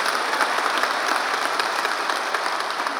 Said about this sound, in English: Let's give them a hand. Welcome them here to Wooddale Church.